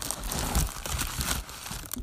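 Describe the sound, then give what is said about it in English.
A paper mail envelope from an online retailer is torn open. Crisp crinkling and rustling run throughout, with a few short ripping bursts at moderate loudness and no other sounds. “It's an envelope from Amazon. So this is just a real quick one. We're just going to see what's in here.”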